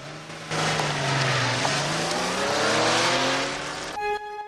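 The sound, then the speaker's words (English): A car engine revs loudly as the vehicle drives away, a sustained droning roar with a brief dip in pitch before it climbs again, holding strong to the end. “He gets in the car and drives away.”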